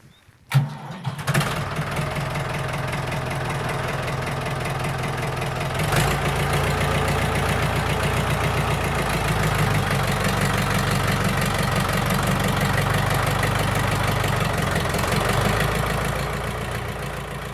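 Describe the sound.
A restored Ford Super Dexta tractor engine, rebuilt with parts from a donor Ford 5000, idles steadily: a loud, low diesel chugging holds even throughout after a sharp burst right at the start.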